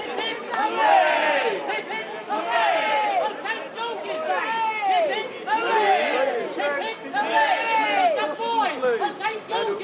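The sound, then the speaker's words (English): A crowd of Londoners cheering at news of a royal birth, with many excited, shouting voices that rise and fall in repeated loud surges. “Londoners cheered at the news.”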